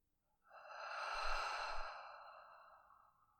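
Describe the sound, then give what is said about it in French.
A single long, breathy exhale through the mouth during a guided breathing exercise, swelling quickly, then trailing off slowly into silence, heard alone with no talk. “Inspirez par le nez. Expirez par la bouche.”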